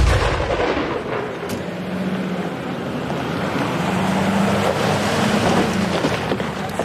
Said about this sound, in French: Ça a été le tir, ça s'est bien passé?